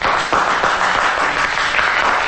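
Audience applause following a dramatic recitation, a thick, continuous spread of clapping at an even level from start to finish of the short stretch.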